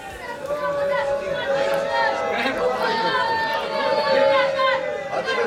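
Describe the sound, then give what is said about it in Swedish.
A crowd of protesters shouting at a large street protest in central Jerusalem forms a dense, steady wash of many overlapping raised voices and babble with no pauses. “det ni hör där är från en stor protestaktion som började i centrala Jerusalem för en liten stund sedan”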